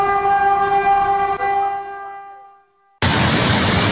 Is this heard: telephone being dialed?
no